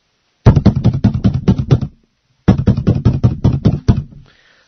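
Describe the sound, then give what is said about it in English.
Knuckles rap on a door in two rapid bursts of many loud, even knocks, with a short pause between the bursts and no voices. “he knocked on the door”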